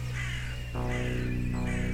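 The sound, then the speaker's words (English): Crows cawing in repeated harsh calls, loud and steady throughout, with no voices. “Lots of crows.”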